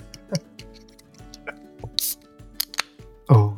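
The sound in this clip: A can of pale ale beer cracks open with a brief, sharp, airy hiss among faint clicks and handling sounds, and a voice is heard at moments.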